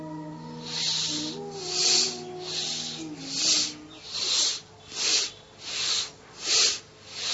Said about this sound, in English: And get ready for your second round of Bhastrika Pranayama.